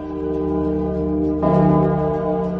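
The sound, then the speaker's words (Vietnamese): A bell rings with a deep, sustained humming tone. A fresh strike partway through swells the sound, which then lingers and slowly fades. “Nhưng đúng lúc này, tiếng chuông lại tiếp tục lần thứ hai vang lên.”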